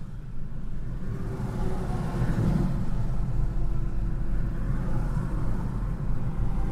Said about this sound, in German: Niemand nimmt Ende September Urlaub. Das ist hier kannst du langfahren, wann du willst. Hier ist immer Stau. Wo kommen die Leute alle her? Wo wollen die alle hin?